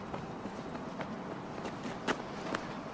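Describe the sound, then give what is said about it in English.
Running footsteps slap along a wet, rain-soaked street as a boy flees, a few sharp steps standing out over steady background noise. “The boy runs down the street and round a corner.”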